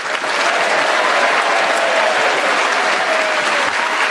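A studio audience applauds to welcome the four players of a comedy panel game. The clapping is steady and dense and holds at an even level for about four seconds.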